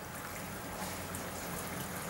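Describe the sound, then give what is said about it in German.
Water pours into a screw-top container meant for an octopus, a steady, fairly faint trickling and splashing that runs without a break and with no voices. “Dass die untergeht, füllen wir die mit Wasser.”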